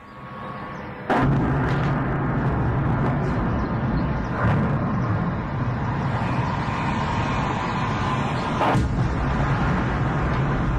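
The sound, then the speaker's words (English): Explosions from drones striking targets outside St. Petersburg, a few sharp, heavy blasts breaking through a continuous loud, low roar that persists throughout. “That's the sound of Ukrainian drones hitting their targets and exploding just outside St. Petersburg this morning.”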